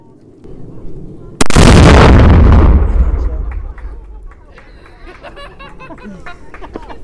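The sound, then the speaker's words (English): A single loud explosive blast shatters a piñata on a hill, followed by a long rumbling decay lasting a couple of seconds. People talk quietly before and after it. “He's up on the hill and he's getting ready to get blasted.”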